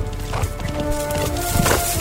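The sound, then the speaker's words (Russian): A horse gallops through a copse of dried, dead trees in a film scene, its rider carrying a lowered red banner. Many quick hoofbeats run steadily at an even loudness. “Зуров скачет по перелеску с засохшими деревьями, в левой руке опущенное вниз красное знамя с навершием в виде золоченого полумесяца. Оглядывается, следом, придерживая куражку, скачет Казанзаки.”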